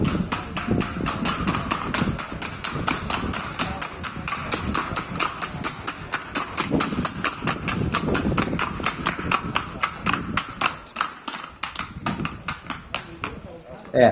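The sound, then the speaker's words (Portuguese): Hoofbeats of a Colombian horse moving in the trocha gait, a quick, beaten marching stride: rapid, evenly spaced clicking steps run continuously beneath a man talking. “Essa é a trocha, que talvez para nós se classifique como uma marcha batida, né?”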